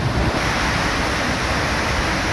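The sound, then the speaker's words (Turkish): Floodwater after heavy rain roars in a steady, dense rush of water noise that holds evenly throughout without distinct breaks. “Araçlar suda sürüklendi. Bazıları alt geçitlerde mahsur kaldı. Evleri, iş yerlerine, otoparkları su bastı. Eyvah! Araba gitti!”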